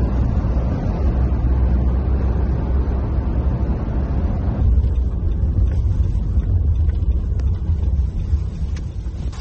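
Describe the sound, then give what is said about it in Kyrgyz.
A car driving on the Vienna motorway gives a steady, loud road rumble with wind noise that stays constant throughout, and no voices. “Бул сыздар көргөндөй Венанын автомагистралында кетип баратабыз.”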